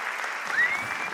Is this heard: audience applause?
yes